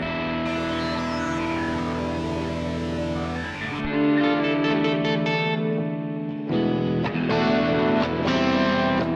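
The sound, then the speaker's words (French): A Thunder Mustang aircraft's original engine sound, drenched in heavy reverb: a loud, sustained harmonic drone that shifts abruptly in tone a couple of times, with a distorted, echoing sheen. “Ils mettent vachement de reverb.”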